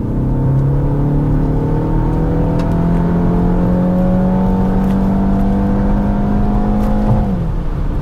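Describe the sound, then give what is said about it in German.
A BMW X1 accelerates hard with Sport Boost engaged, a loud, sustained engine drone whose pitch climbs gradually before dipping near the end. “Das linke Pedal hat noch eine Sonderfunktion. Wenn ich eine Sekunde lang dran ziehe, wird das sogenannte Sport Boost aktiviert und alles wird auf scharf gestellt.”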